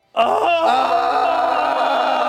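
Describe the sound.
Two people screaming together, a loud sustained and wavering vocal cry that starts abruptly and holds for about two seconds without any spoken words.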